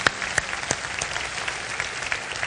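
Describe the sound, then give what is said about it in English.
A church audience claps their hands during a worship service: a dense, steady patter of many hands, with a few sharper claps standing out at a loose, regular beat and no talking over it. “Clap your hands.”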